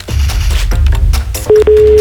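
A telephone call goes unanswered: a noisy, busy stretch gives way to a steady electronic tone that breaks once briefly, then resumes and holds to the end.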